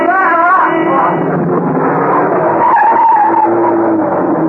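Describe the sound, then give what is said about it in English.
A van skids as it comes round a corner on a wet road, a loud, unbroken tire screech with engine roar that holds steady for the whole stretch. “The van, coming round the corner, skidded as it tried to avoid him.”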